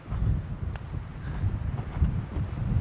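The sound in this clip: Hooves of a pack animal descending a hillside trail in strong wind make a steady series of soft, irregular low clops and thuds beneath gusting wind noise.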